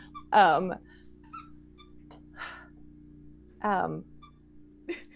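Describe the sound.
A dog gives squeaky, crying whimpers: two louder high-pitched whines, each under half a second, with a few fainter squeaks and breaths between them over a low steady hum.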